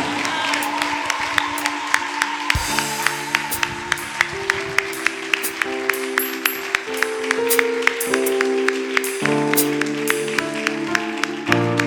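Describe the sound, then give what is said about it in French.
An audience applauds and acclaims God at a church service, clapping in steady rhythmic time over loud music. Crowd noise continues throughout. “Alors sans plus tarder, je veux que tu acclames Dieu pour sa vie, son ministère.”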